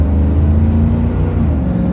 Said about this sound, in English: hear me accelerate. I pulled out a little sooner than I should have, and only to make this turn up here